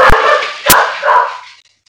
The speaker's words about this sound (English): That'd be my dog.